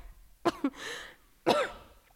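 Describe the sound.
Someone with something caught in the throat coughs and clears it: two quick, sharp coughs, then a rasping, drawn-out throat clearing, then one heavier, harsher cough, with short quiet gaps between.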